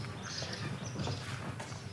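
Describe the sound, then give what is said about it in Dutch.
Horse sounds as someone walks into a horse stable: faint hoof clip-clop and shuffling over a low, steady stable ambience. “Nou, we lopen nu de paardenstal binnen.”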